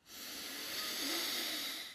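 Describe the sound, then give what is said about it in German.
A deep breath drawn in through the nose during a guided relaxation exercise, a soft, airy hiss that swells gradually, holds and then fades away. “Tief einatmen über die Nase”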